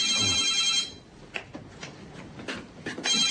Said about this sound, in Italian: E proprio in quel momento il telefono squillò.